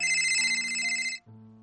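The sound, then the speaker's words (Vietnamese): A phone ringtone plays as a steady, bright, multi-tone electronic ring, then drops abruptly to a lower, quieter tone near the end. “Đợi đến khi tiếng chuông gần tắt, Cố Nghiên Thù mới bắt máy,”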